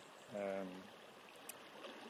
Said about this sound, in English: the sound intensifies the lower the tide is, because there are more stones and rocks exposed. And so the water is running over a lot more,